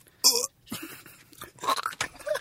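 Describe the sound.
Chewing and crunching of a food likened to a mouthful of grass: several uneven, crunchy bites and wet mouth noises at a moderate level, with one loud crunch near the start and no talk.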